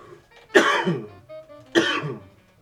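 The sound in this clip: Two harsh coughs from fluff caught in the throat, each a loud, sudden burst with a raspy tail, separated by a brief quieter throaty sound.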